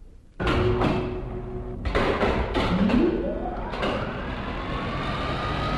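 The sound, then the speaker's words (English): An elevator descends with a loud mechanical whir and rumble. A few clunks break through, and a whining tone slides upward in pitch as the car picks up speed. “Now, here's the elevator. Oh, that must be a real help. Oh, even three stories is a lot when you have to run up and down all day. Sure. And for the patients. Oh, all right. Let's ride down. It's functioning.”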